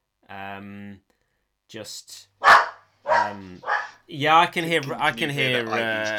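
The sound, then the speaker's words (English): A dog barks at home: a drawn-out, tonal bark opens, followed by a few shorter yelps mixed in with a person talking. “so I'm going to let Ivy bark it out. As long as she doesn't go and chew through your microphone.”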